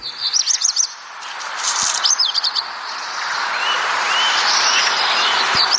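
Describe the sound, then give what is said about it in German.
A black redstart, a small songbird about 13–15 cm long that nests in gardens and near houses, sings alone: two quick bursts of high whistled notes, then a long scratchy, hissing stretch of song. “Der nistet viel in Gärten, aber vor allem auch in der Nähe von Häusern. Und der singt, finde ich, sehr, sehr schön. Hör mal, das klingt so.”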